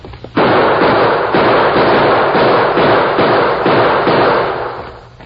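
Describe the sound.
Gunfire in a frontier shootout across broken, rocky ground: a dense, loud barrage of overlapping shots that bursts in after a brief lead-in and roars on almost continuously for about five seconds before easing slightly at the end.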